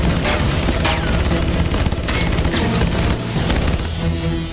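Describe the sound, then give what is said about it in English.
Loud, dense gunfire as dozens of bullets puncture an old motorhome: rapid overlapping cracks and metallic impacts merge into a continuous barrage. “Dozens of bullets puncture the old motorhome.”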